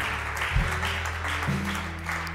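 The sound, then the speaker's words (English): Congregation applauding to welcome a preacher to the front, a steady, even sheet of clapping sustained from start to finish, with a low held tone underneath. “So would you put your hands together and give her a huge welcome as she brings the word.”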